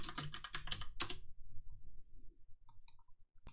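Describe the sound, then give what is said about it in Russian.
Someone types a web search on a computer keyboard: a quick burst of crisp key clicks, a pause, then a few scattered taps, all soft and with no talk. “Я так и пишу в гугле Курт Кобейн. Куртка, пробел Бейн.”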